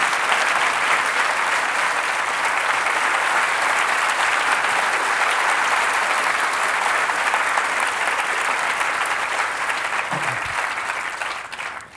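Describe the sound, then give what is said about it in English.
Audience applause welcoming the writer Edna O'Brien: dense, even clapping from a crowd that holds steady for about twelve seconds, then tapers off at the end. “Ladies and gentlemen, please put your hands together and welcome Edna O'Brien.”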